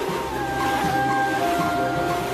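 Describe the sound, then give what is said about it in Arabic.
Storm at sea around a sailing ship: a continuous rushing roar of wind and waves with faint steady whistling tones running through it and no clear breaks. “العاصفة شديدة، صارت العاصفة في غير وقتها. خففوا أحمال السفينة.”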